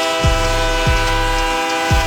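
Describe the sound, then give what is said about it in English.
A train being boarded gives a steady low rumble, cut by three brief, loud, falling tonal sweeps like a horn or whistle, evenly spaced through the sound. “Yeah, I'm boarding this train.”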